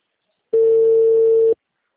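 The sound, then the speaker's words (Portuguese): A telephone tone after a dropped call: one flat, mid-pitched beep of about a second, steady and loud, with silence before and after. “eu tava falando com a senhora, a ligação caiu.”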